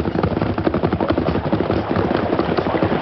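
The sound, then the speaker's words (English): Galloping horses ridden toward a freight wagon caught in a creek: a dense, steady drumming of many hoofbeats, loud and continuous throughout, with no talk. “Come on, let's go, Silver. Get him up, Scout.”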